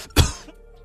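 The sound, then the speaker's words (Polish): A single short, hoarse cough from a man bursts out sharply and dies away quickly, with no talk around it. “Sorry, bo się skaszlałem.”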